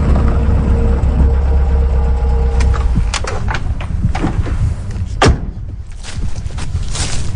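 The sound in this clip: Car engines in an everyday car park: a loud, steady low rumble of running motors, broken by scattered clicks and thumps and one sharp knock late on.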